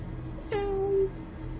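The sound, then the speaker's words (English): A person's voice imitates a baby kitten's meow: one drawn-out mew about half a second long, with a sharp onset that settles into a steady, nasal mid-pitched tone before cutting off, over a low background rumble. “I'm harmless as a baby kitten. Yes, a baby kitten. Mew.”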